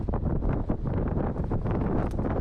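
Strong typhoon wind on Taiwan's northeast coast, a dense, continuous roar with gusty surges that stays loud throughout, with no voices.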